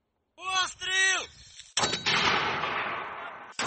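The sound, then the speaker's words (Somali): An M-224 mortar, a lightweight, portable US-made weapon, fires with a sudden sharp blast that rolls away into a long, fading rumble. A second blast cuts in at the very end, and a brief voice comes before the first shot. “Hubiyaha M-224 ee uu Mareykanku farsameeyo waa hub aan cuslayn”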